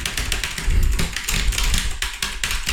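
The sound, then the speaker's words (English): Typing on a clicky computer keyboard, a fast, loud, dense clatter of keystrokes running without pause. “That's how I type, by the way. Somebody tells me to type and I go.”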